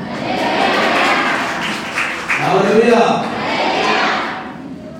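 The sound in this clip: A church audience claps and shouts in praise, a broad, sustained roar of hands and crowd noise with one voice rising clearly above the din in the middle before the clamour eases slightly.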